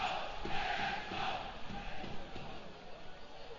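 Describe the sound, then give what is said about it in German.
Football stadium crowd at an Arminia Bielefeld match, a fairly faint, steady roar of many voices chanting and shouting, with a few dull thuds within the noise. “Ja, ich hoffe, ihr kriegt hier die Stimmung ein bisschen mit. Also auf den Ort wird ordentlich Stimmung gemacht. Ist richtig laut.”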